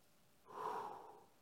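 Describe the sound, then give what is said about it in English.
A church audience takes a deep breath, heard as one soft, airy inhale that swells and fades in under a second. It is faint and stands alone, with no talk. “Let's just all take a deep breath.”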